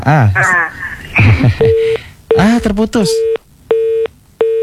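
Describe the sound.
Repeating busy tones on a telephone line after a caller is cut off during a radio call-in: short, steady, mid-pitched beeps at an even rhythm, following a stretch of talk.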